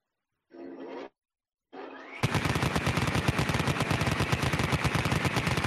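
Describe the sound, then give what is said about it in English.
Vulcan rotary cannon sound effect: two brief whirring tones, then a loud, sustained stream of extremely rapid firing that blurs into a harsh, continuous buzzing roar until the end. “Rapid fire. Let me, let me bring up the Vulcan.”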